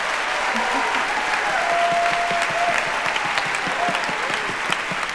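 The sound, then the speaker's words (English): Audience applause from a live show crowd, a dense, loud and steady clapping that carries on unbroken throughout. “So give it up for Radiolab producer Molly Webster.”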